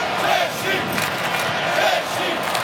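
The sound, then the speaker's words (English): Mexican football fans in a stadium during a match against Czechia make a brief, steady roar of cheering, a broad wash of crowd noise with slight surges. “The noise being generated by the Mexican fans.”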